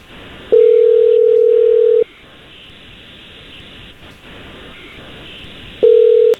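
A telephone line's steady dial tone, heard while placing a call, sounds loud and unbroken for about a second and a half, gives way to quieter low line noise, then returns briefly at the end.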